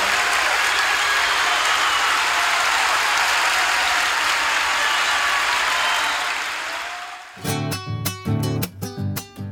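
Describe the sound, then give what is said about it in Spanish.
Loud, sustained audience applause after a live song, a thick wash of clapping that holds steady for about seven seconds, then thins and gives way to music with clear tonal notes. “Gracias por los aplausos.”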